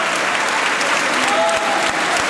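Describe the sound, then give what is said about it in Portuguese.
Standing applause in a parliament chamber from the PSD benches and many Socialist Party deputies: dense, loud, continuous clapping from many hands, steady throughout. “Aplausos de pé da bancada do PSD e também de muitos deputados do Partido Socialista, que aplaudem”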